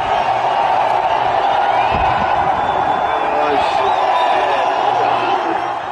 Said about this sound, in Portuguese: Esse som que você ouve é a população singalesa, no sábado, invadindo a residência oficial da presidência na cidade de Colombo.